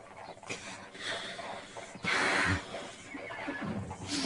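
A horse neighs, with a loud, drawn-out whinny near the middle over a steady noisy background and quieter breathy sounds on either side.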